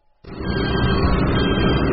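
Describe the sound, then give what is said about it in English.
An 18-wheeler truck spins its tires through snowy mud on an undeveloped well pad on a cold morning. The loud, rough roar starts abruptly after a short quiet moment and rumbles on steadily. “An 18-wheeler spins its tires through snowy mud on an undeveloped well pad in Wyoming's Powder River Basin.”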